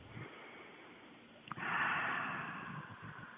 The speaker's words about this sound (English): A couple of deep breaths. One more.